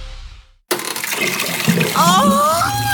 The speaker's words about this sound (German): Oh, Waschbecken, Toilette, alles voll bis oben hin.